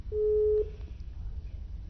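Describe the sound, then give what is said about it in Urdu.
A telephone line tone after a caller disconnects: one steady, mid-pitched beep lasting about half a second, followed by faint low line hiss and no voices. “جی ہمارے ساتھ جو collar موجود تھے وہ disconnect ہو چکے ہیں”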